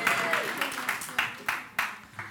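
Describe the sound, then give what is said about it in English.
Audience applause breaking out at a talk, heard as a few scattered bursts of clapping that rise and fade beneath a speaking voice. “That, come on, round of applause.”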